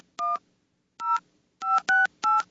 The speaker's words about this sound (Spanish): A ver, déjame marcar otra línea. Otra línea.